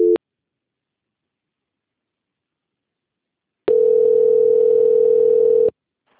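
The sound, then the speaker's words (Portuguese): Telephone line tones while a call is being transferred to a busy extension: a short beep, a few seconds of silence, then one steady mid-pitched tone lasting about two seconds. “Só mais um momentinho que o ramal tá ocupado, tá? Ok. Transferência.”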